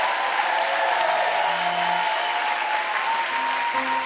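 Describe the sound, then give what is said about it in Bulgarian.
A church audience bursts into steady, dense applause during a pastor's sermon, loud and even throughout with no break. “О, ако ръкопляскаш, ръкопляскай, като че наистина вярваш.”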